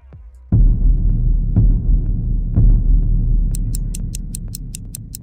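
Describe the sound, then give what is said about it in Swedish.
Clock ticking as a timer starts, with low throbbing pulses roughly once a second over a steady rumble, then a rapid run of sharp, high-pitched ticks joining in near the end. “Nu kör vi. Starta klockan.”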